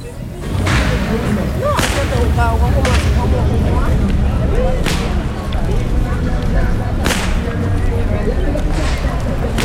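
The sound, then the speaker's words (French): Sharp whip cracks at a carnival: several loud, sudden snaps spaced irregularly over a steady low rumble, with voices in the background. “Tu vois ce fouet là ? C'est le fouet du commandant dans les plantations, le son qui met les esclaves au travail.”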